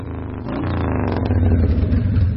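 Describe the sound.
A motorbike engine rumbles as the bike arrives in the morning, a low steady drone that swells from moderate to loud over about two seconds, with no voices.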